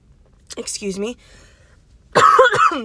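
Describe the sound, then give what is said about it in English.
A person coughing and clearing their throat in two rough, raspy bursts separated by a short pause, the second burst louder. “So if you just heard me cough, I don't have corona.”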